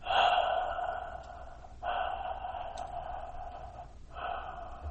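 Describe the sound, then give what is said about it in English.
Breathing through a constricted throat during breath meditation: a few long, hissing breaths in and out, each a steady rasping rush separated by short pauses, with no voices. “to be aware of your breath going in and out, you can close your throat”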